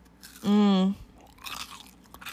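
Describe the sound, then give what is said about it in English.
Crunching and chewing on homemade Christmas cookies of Rice Krispies, marshmallow and peanuts coated in white chocolate and peanut butter. A short voiced hum comes first, then soft, irregular crunchy chewing follows at a low level. “I'm eating these delicious Christmas cookies made by Lori Travelset”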